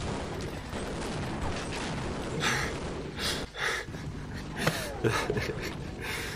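Gunfire in a video game shooter: several sharp bursts of shots crack out over a steady wash of background noise, irregularly spaced.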